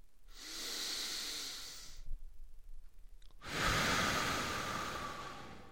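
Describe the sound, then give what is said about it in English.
A deep, slow breath is drawn and released in two long, airy, hissing passes separated by a short pause. The second pass is brighter and slightly louder than the first. No voices are heard. “Get comfortable, close your eyes, and take a deep breath.”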